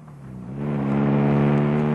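A car engine hums steadily as a chauffeur drives at an unhurried pace. The low, smooth drone swells in loudness after a moment and then holds even.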